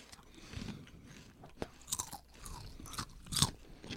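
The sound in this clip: Crisp crunches of someone biting into and chewing garlic mashed potato flavored chips, a few loud snapping bites followed by softer, irregular chewing, with no talking.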